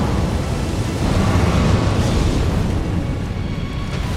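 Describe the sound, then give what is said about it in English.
Explosions and roaring fire in a video game: loud, continuous rumbling blast noise fills the whole stretch without letting up, with no voices. “Oh, there's fire everywhere. I think we survived the initial mega blasts. Now we've just got some fireballs chasing us.”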